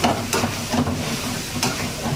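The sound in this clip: Meat, tomatoes and green chillies fry in karahi pans, giving a dense, continuous sizzling hiss with a few sharper crackling bursts rising out of the steady frying noise.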